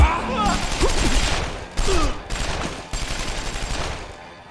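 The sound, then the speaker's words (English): Heavy gunfire hammers the metal side of a massive gun in a wasted-world setting. Loud, dense bursts of rapid shots and impacts come in a few rough waves separated by short breaks. “Hot lead obliterates the side of the massive gun.”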